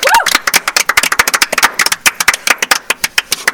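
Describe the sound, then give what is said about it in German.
Applause of dense, irregular hand claps that patter on steadily and loudly throughout, with a brief voice at the very start. “Nochmal Applaus.”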